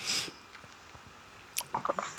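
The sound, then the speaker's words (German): A last sip of blended malt whisky is taken: a short airy slurp at the start, then a quiet pause, then a few small wet mouth clicks and a swallow near the end. “Dann nehme ich jetzt den letzten Schluck.”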